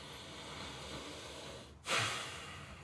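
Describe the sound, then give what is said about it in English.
A single deep breath taken at the start of a meditation: a soft, airy rush that swells briefly over quiet background hiss and fades. “So to get this meditation started, I ask you us all to just get a big old breath”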